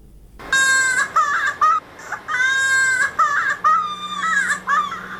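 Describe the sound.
A child cries at a polio vaccination in Helmand: high, strained wails broken into a series of sobbing bursts, loud and without any talk.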